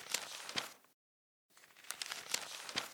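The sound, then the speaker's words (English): A paper journal is handed over and its pages handled, giving dry rustling and crinkling in two stretches split by a short silence, with no talk. “To make sure I didn't forget any, I've written it all down in my new European trip journal. Here, take a look.”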